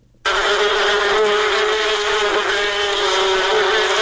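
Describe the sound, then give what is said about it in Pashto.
Honeybees buzzing at a bee farm in Kunduz, a dense, steady drone that starts abruptly and holds at an even, loud level throughout, with no talk. “او کندوز کې د شاتو د مچیو فارم لرونکو د شاتو له تولید څخه راضي دي”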